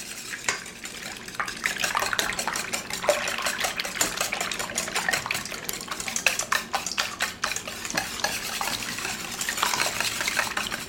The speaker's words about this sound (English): Now I'm going to add that to my dry ingredients. And whisk it really well. Basically, I'm making pancake batter. I'm making a savory pancake batter.